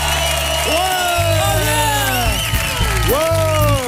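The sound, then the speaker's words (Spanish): Prerecorded studio audience applause and cheering, a continuous crowd roar with high whooping cries that rise and fall throughout. “Como se nota que son aplausos pregrabados. ¡No, hombre! En verdad no ha venido nadie. ¿Cómo que no? ¡Mira cómo suena el público de esta noche!”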